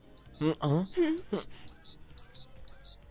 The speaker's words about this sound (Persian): این صدای ساعت توئه؟ آره، باید تعمیرش کنم.